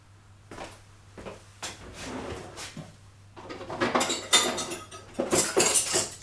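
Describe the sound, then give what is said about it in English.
Forks, spoons, knives and plates clink and clatter as they are set out. The rattling comes in many quick bursts and grows louder and busier in the second half, over a low steady hum. “Okay, so that's forks, spoons, knives, plates.”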